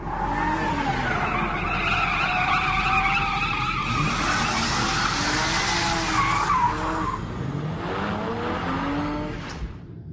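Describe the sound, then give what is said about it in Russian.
A car skids on asphalt after a sharp jerk of the steering wheel to the right. Tyres screech loudly and continuously over a steady engine roar for about ten seconds, and the squeal wavers in pitch. “Резкий рывок руля вправо, машину занесло, но сцепление с дорогой не было потеряно.”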